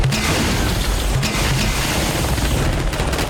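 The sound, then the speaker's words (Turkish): Rocket fire and explosions in a combat scene: a continuous, loud, dense roar of blast noise with heavy low rumble, steady throughout without clearly separate impacts. “Ateş. Roketler yolda.”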